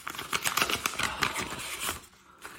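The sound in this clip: An envelope is torn open at an award announcement, with quick bursts of crinkly paper rustling and tearing that stop, then one faint rustle.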